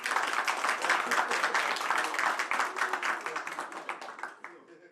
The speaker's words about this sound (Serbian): Super, još jedan veliki aplauz, molim vas.